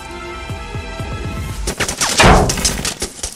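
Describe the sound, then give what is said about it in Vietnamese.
Bursts of wartime gunfire raking a road with flat-trajectory rounds: a quick, regular string of sharp shots, then a louder, denser crackling volley that keeps going to the end. “Bỗng từ hướng trước mặt, từng loạt đạn thẳng căng bắn chọc trên con đường.”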